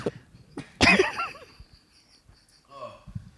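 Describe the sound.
A sputtering cough after choking on spit, one loud burst that tapers into quieter throaty sounds and short breaths.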